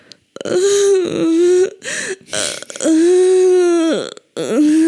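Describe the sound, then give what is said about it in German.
A voice imitates a man whimpering during sex, with several drawn-out, strained moaning sounds of wavering pitch broken by brief gaps. “die haben gerade Sex und er klang so, als würde er wimmern.”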